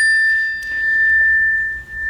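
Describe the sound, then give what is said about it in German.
A doorbell rings with a single sustained electronic tone. It holds one steady high pitch without a break over a faint low hum. “Es läutet an der Tür.”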